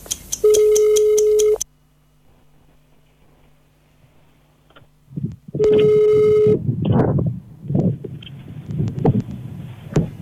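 A telephone line tone plays while a caller waits on hold for a health service's cancer screening booking line: two buzzy sustained tones about a second long, separated by a quiet low hum, followed by muffled rustling sounds.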